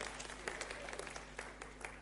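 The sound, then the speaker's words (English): Applause for a quiz team: a continuous patter of many hands clapping, fairly quiet and even throughout, with no voices. “So round of applause for this team.”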